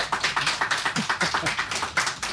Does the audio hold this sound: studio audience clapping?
yes